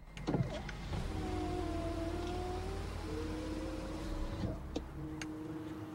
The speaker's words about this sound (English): The driver lowers his window